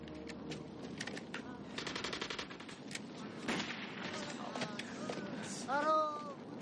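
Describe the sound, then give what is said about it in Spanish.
Rapid gunfire from a battalion of soldiers shooting incessantly in a film battle scene: dense, continuous bursts of shots crackling throughout, with voices and shouting rising over the shooting near the end. “un numeroso batallón de soldados se coloca ante ellos disparando sin cesar”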